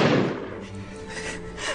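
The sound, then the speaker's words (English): A loud gunshot from a Beretta pistol bursts at the very start and decays into a lingering rumble and hiss. “That was a loud gun.”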